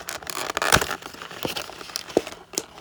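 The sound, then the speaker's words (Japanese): Crinkling plastic packaging as a toy is unboxed: a few sharp, papery crackles and rustles with quieter handling noise between them, fairly faint overall. “早速おもちゃの方を開封していきたいと思います。”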